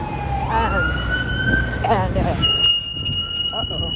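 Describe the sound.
A police car siren wails in rising sweeps of pitch, then shifts to a higher, steady piercing tone before dropping out near the end.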